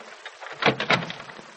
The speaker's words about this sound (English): Oh, he's unlocking the door.